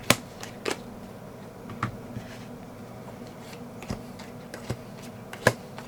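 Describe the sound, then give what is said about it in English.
Playing cards being laid out on a surface, heard as a few light, sharp snaps and taps at irregular intervals over a faint, quiet background. “I can hear the cards.”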